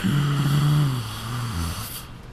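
A heavy, strained breath from a person in medical distress being coached to breathe in and out: one long, loud exhale carrying a low voiced groan that sinks slightly in pitch and then fades.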